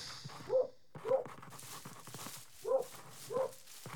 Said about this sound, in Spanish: Sin dudas, se trataba de un perro.